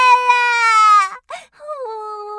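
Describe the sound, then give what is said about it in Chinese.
A child bursting into tears gives a long, high, wavering wail, then a brief choked sob and a lower, drawn-out cry that trails off. “种子全都掉了。妙妙大哭起来。”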